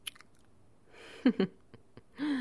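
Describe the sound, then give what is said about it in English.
Wet sucking and mouth sounds as a finger is sucked, heard as a few short, soft squelchy bursts with faint breathy noise between them. “Here, open your mouth and suck on my finger.”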